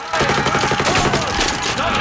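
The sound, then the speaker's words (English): Heavy gunfire rattles across a battlefield scene as soldiers advance across a field, with rapid, loud machine-gun bursts forming a continuous, dense fusillade of pulses throughout. “as Walter's men advance across a field, they come under heavy fire”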